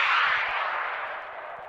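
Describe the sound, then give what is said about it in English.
Roar of a Scud missile launch: a loud, broad rushing blast that starts at full strength and slowly fades over under two seconds, heard alone without voices. “Do you hear that? That's the sound of a Scud.”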